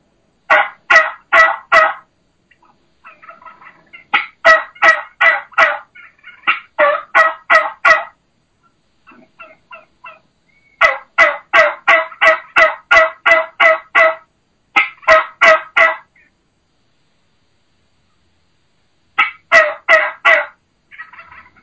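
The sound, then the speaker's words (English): Turkey hen call in the low, slow style of an old mature boss hen, stressing the lower note: several loud runs of rhythmic yelps, each run of four to about eleven notes, separated by short silent pauses. “the vocalization of a boss tom boss hen or an old mature hen. What I call that low and slow.”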